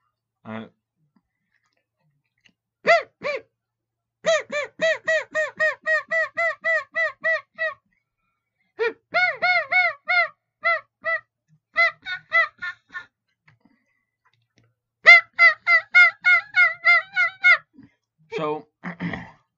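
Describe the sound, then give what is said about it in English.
Mouth-blown Easy Clucker turkey call producing runs of raspy, high yelps and clucks, several rhythmic series of quick notes separated by short pauses, heard alone and loud. “I'm forewarned, it will tickle the roof of your mouth. So, but this one is called the Easy Clucker.”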